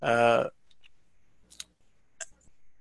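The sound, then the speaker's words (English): A retractable pen clicks on and off a few times, giving sharp, isolated dry clicks after a short burst of speech, with quiet pauses between them. “we have a pen in our hand that we're turning on and off by pressing on the tab”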